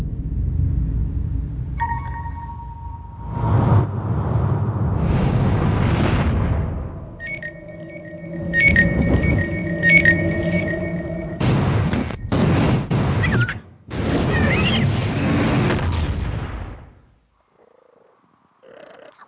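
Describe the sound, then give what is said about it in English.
Film trailer audio for the movie Earth to Echo: deep booming hits, sustained electronic tones and dense bursts of noise. It stays loud throughout, then drops suddenly to near silence at the end. “So let's listen to a little bit of the Earth to Eckerd trailer, and then we'll get into the review.”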